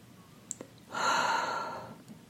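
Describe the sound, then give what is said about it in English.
A single deep breath is drawn in, a breathy rush lasting about a second after a couple of tiny mouth clicks. It then tapers off into near quiet as the breath is held. “take a deep breath with me, breathing in, holding it”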